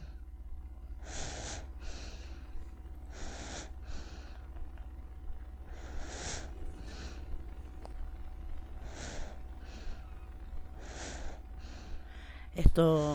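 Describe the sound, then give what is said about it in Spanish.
A baby breathes softly in five slow, regular breaths, each a pair of short, airy puffs. The breathing is faint and evenly spaced over a low, steady background hum. “Esto que escuchamos es una respiración, sí, de bebé.”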